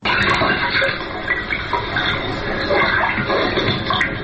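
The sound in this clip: Loud, steady rush of running and splashing water during a shadow theatre performance, a continuous broad wash of sound with slight surges and no pauses.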